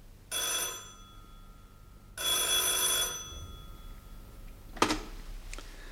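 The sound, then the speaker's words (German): A telephone bell rings twice in the evening, each ring a bright, shrill trill lasting about a second with a pause between. A brief, sharp click follows after the second ring. “Und die Geschichte begann, als abends bei mir das Telefon klingelte.”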